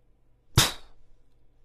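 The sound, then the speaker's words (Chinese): A gunshot sound effect, a bullet striking a head: a single sharp, loud crack with a quick hissing decay that fades into low rumble. “子弹破开颅骨，钻入血肉的声音异常清晰。”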